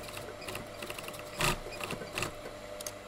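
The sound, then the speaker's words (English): Antique foot-pedal sewing machines clatter in the Grevi family hat workshop near Florence, where seamstresses stitch summer hat brims. Steady mechanical ticking and ratcheting runs throughout, with a couple of louder knocks. “A handful of veteran seamstresses dutifully work in silence, using foot pedals on antique sewing machines to assist them as they construct the brims of classic summer hats for the family-owned business.”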